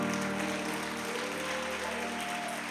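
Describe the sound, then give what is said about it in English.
A church audience applauding, a dense, steady wash of clapping that holds at an even level for the whole stretch with no clear individual claps standing out. “Come on, put those hands together.”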